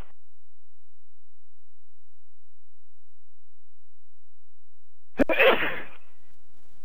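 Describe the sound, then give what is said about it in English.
A single sharp human sneeze bursts out after several seconds of silence. It is short and loud, then fades back into quiet. “Excuse me. Bless you. Sorry. You ever tried real hard not to sneeze?”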